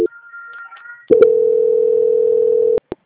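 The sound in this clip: A steady telephone tone sounds during a call transfer. It is loud and unbroken for under two seconds, preceded by faint higher beeps and ended by a couple of short clicks.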